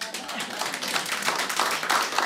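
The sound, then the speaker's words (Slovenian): Studio audience clapping, a dense patter of many hands that stays steady and moderately quiet throughout, with scattered sharper claps standing out from the mass. “Ja, ja, publika, tudi v tisoči oddaji se lahko ploska.”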